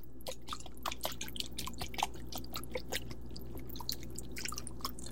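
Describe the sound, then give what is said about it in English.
A whisk works through a marinade made with rice wine vinegar, giving quiet, quick, irregular clicks and wet taps that repeat many times without talk. “So we're gonna go ahead and give this a nice whisk.”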